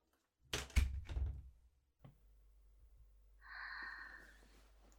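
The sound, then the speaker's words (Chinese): A door is pushed shut: a cluster of heavy thuds near the start, then a lone softer click, followed by a brief wheezing, breathy tone. “把门关上。”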